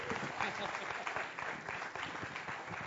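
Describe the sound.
Dense, steady applause from an audience welcoming a visiting pastor from Enfield, England, with crowd voices mixed into the clapping throughout.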